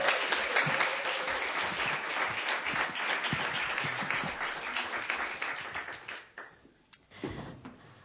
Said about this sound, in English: So put your hands together for Nicole Thomas, everybody.